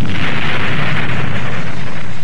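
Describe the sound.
Booming bomb explosion sound effect in a cough medicine advert: a loud, sustained roar of blast noise with a heavy rumbling low end, alone and without voices.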